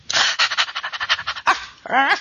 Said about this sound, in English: Woof. Bark.